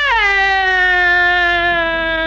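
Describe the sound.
A woman's crying wail, a duchess weeping in a Hungarian verse drama: one long, loud, high, wavering cry that drops sharply in pitch at the start, then holds a steady sobbing tone on its own.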